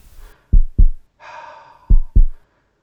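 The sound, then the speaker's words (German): A heartbeat heard through a stethoscope: two pairs of deep, thudding lub-dub beats, separated by a soft breathy hiss in between, with nobody talking. “Hört sich so an wie ein Herz, als würde ein Herz schlagen.”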